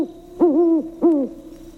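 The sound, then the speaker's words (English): A great owl hoots twice, each a clear, mid-pitched tonal call that sags slightly at its end, separated by a short pause over quiet background hiss. “Benny was so deep in thought that a great owl hooting suddenly made him jump.”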